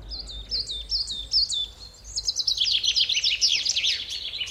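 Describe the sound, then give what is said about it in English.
Birds singing in high, bright chirps, first a string of repeated separate notes, then a denser, louder flurry of rapid calls, over a faint low hum. “if you want to create something very beautiful, then you can only use one sound. It's birds singing.”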